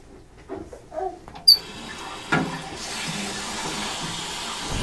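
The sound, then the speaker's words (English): Running water rinsing something out, a few soft knocks and splashes first, then a steady broad hiss of flowing water that grows fuller and continues to the end. “Let's rinse this stuff out.”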